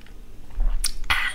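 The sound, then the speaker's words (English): Coffee being sipped: a couple of short, soft slurping sips, quiet and brief, with no talk over them. “if you hear me sipping on my coffee like now,”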